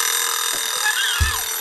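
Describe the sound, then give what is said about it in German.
An alarm clock rings with a long lead-in, giving a steady, bright electronic tone throughout, with a couple of dull low thumps beneath it. “Dieser Wecker hat so eine krasse Vorlaufzeit.”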